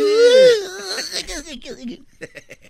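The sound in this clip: A man fakes crying on request, his voice imitating it with a high, wavering wail that breaks into shorter, choppy sobbing gasps and trails off.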